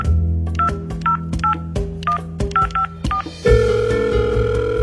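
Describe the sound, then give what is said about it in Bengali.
Telephone keypad tones beep in a quick, slightly irregular series of short, mid-pitched chirps as a number is dialed, then give way to a steady, continuous tone over a low hum. “Dial করলেন”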